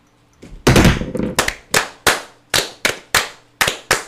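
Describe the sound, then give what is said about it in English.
A volley of gunfire fired on command: a dense, loud opening burst of overlapping shots, then about eight separate sharp cracks in a ragged sequence, each dying away quickly. “Ready. Ready. Ready. Aim. Aim. Fire, good fire. Fire all.”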